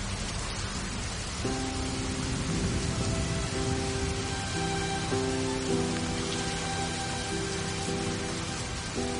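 Heavy rain pours in a dense, steady hiss that stays loud throughout, with soft sustained musical tones underneath and no voices.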